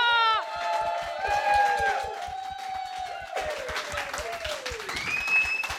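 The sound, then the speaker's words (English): An audience applauds to welcome a guest onto a show, a steady wash of clapping that continues throughout while voices cheer and talk over it. “Put your hands together.”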